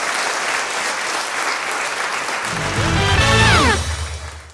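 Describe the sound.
Audience applause for Vilnius University at a live event: steady, dense clapping throughout, with music swelling beneath it in the second half before fading.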